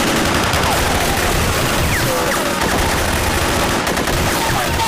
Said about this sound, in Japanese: まだもう一度撃て。